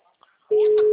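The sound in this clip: Ringback tone of an outgoing telephone call: a steady single-pitched tone begins halfway through and holds to the end, after a few faint murmurs.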